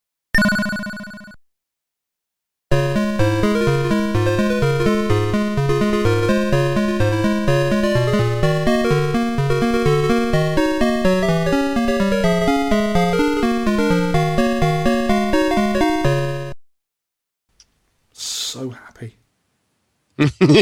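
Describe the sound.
Konami's Circus Charlie arcade video game plays its gameplay music: a dense, bouncy chiptune with a steady, quick rhythm that runs for about fourteen seconds, with brief voices before and after.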